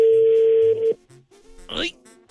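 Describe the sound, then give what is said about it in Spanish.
Incoming telephone call connecting on the line: a steady, mid-pitched line tone holds for under a second and cuts off abruptly, followed by faint line noise and a short crackling burst. “Está entrando la llamada en este momento.”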